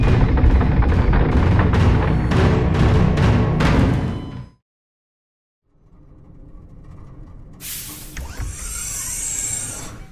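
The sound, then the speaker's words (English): An earthquake sound effect: a few seconds of loud rumbling crashes with sharp knocks break off into silence, then a lower rumble returns and swells, joined by a bright hiss. “Hold on to something! Whoa. It's another earthquake!”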